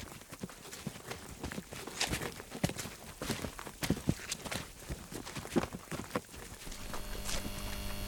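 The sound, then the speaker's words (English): Footsteps on a long walk back to parked vehicles: many soft, evenly paced steps at low volume, continuing steadily without voices. “It's a long, silent walk back to our vehicles.”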